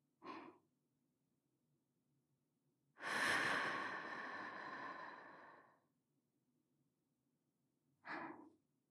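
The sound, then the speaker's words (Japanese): Slow exhale during a guided breathing exercise: one long, airy breath out lasting about three seconds, set between two short, soft breaths, quiet and alone. “全身の力を抜いていきましょう。最初に息を吐き出します。二人で息を合わせましょう。いきますよ。”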